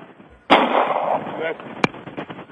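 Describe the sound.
A discharged weapon fires a loud sharp blast that trails into a roar lasting about a second, followed later by a second short, sharp crack, with some voice around it.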